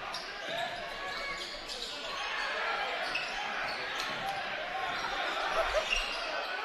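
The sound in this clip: Basketball dribbling on a court during a boys' high school district title game, the ball's faint bounces sitting beneath a steady wash of crowd noise.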